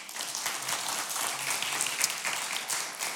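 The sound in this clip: A church audience applauds a first-time visitor, a dense, steady wash of many hands clapping that holds at an even level throughout with no voices on top.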